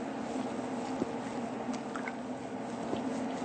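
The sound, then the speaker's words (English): Leaves being stirred in a pot of water: a steady watery rush with a few soft, squishy knocks. “Give it a good stir. We will know when the leaves start to turn into a bright green.”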